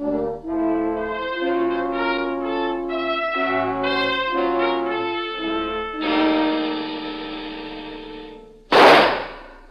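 A pistol shot at target practice: one sharp, loud crack that comes right after a sustained passage of musical tones.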